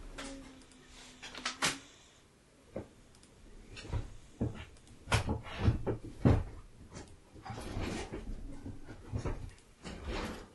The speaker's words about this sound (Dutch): De kans is zeer goed aanwezig als ik nu door dit kastje ga graven dat ik mijn spreekbeurt